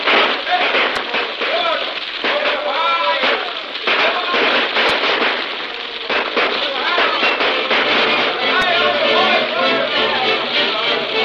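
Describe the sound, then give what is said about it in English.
Rifle gunfire in a radio drama battle scene crackles in a dense, continuous volley of rapid shots and pops, with people talking over the shooting throughout. “Now then, you guys with the rifles, move up there. Watch the buildings. Okay, look out for those planters. All right, let them have it.”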